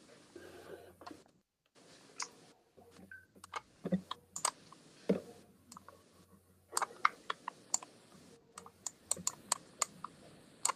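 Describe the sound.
Keys clatter on a computer keyboard as someone types out what is dictated, with quiet, irregular bursts of clicks separated by short pauses and a few sharper taps toward the end.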